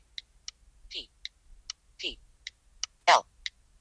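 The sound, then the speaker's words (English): Someone types a search word on a computer keyboard: many sharp, light key clicks at an irregular pace, a few of them slightly heavier, against a quiet background. “So I'm going to type Apple.”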